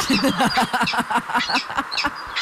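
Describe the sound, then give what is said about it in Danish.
A peregrine falcon gives harsh, raspy calls in a rapid, dense series of short, loud, cackling notes, nasal and grating in tone, running without pause. “Det var en vandrefalk.”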